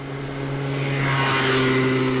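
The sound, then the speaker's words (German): A moped passes along a path beside a cemetery at midday, its engine drone steady with low humming tones and swelling louder over the short clip. No voices are heard. “Jetzt kommt sogar ein Mofa. Warum kommt hier ein Mofa in der Mittagszeit?”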